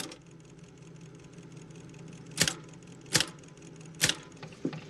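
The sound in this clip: A typewriter is struck with a big toe, giving a few slow, sharp key clacks spaced under a second apart. The clacks are fairly faint and sit over a steady low hum, with no other activity between strikes.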